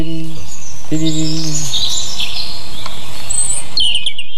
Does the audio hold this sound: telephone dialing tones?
no